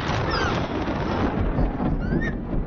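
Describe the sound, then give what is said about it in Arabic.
Thunder from lightning rolls as a loud, continuous rumble that swells and fades slightly throughout, with no clear individual cracks. “إنه البرق. لا تقلق، أنت بأمان.”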